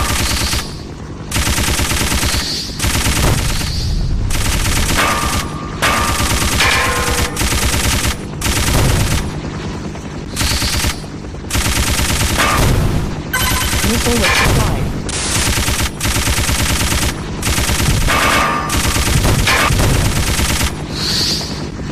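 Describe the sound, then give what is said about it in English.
Machine gun fire in a video game, loud rapid-fire bursts of many shots, several long volleys separated by short pauses throughout. “he's shooting a machine gun at me.”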